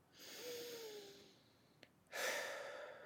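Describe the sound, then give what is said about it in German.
One deep, slow breath is drawn in, followed by a short pause and a long, airy breath out. The breathing is soft and quiet, part of a guided breathing exercise. “Atme einmal ganz bewusst tief ein und aus. Und wirklich, mach das jetzt. Tief ein- und ausatmen.”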